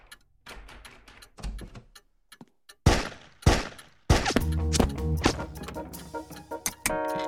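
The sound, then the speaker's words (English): Gunshots in a radio drama: three loud, sharp bangs in close succession after softer knocks and thuds, then busier clattering noise with a sustained tone. “I knew the real killer couldn't resist a pop shot or two, so I hid behind the door.”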